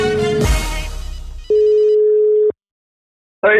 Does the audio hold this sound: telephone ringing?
yes